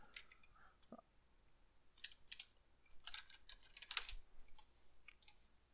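Typing on a computer keyboard, with faint, irregular clusters of light key clicks. The keystrokes come in quick bursts separated by short pauses, and there is no talk.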